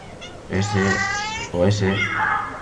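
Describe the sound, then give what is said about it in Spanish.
Cat meows play from an Android cat-sounds phone app: two drawn-out, tonal calls, the second longer and trailing off. “Cat Sounds para Android, que es una aplicación para emitir gatos, para sonidos de gatos, como por ejemplo”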